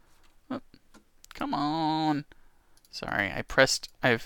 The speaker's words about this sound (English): I got off a home row and I hit the wrong hot keys, and so my computer is acting up.